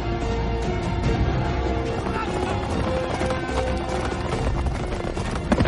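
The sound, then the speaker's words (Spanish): Horses gallop in a dense, loud, continuous rush of hoofbeats as fifteen riders chase five people leading three pack horses loaded with belongings, in an action-fantasy film. “15 jinetes persiguen a cinco... que llevan tres caballos cargados de enseres.”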